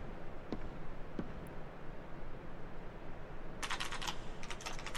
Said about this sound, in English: So he types in another.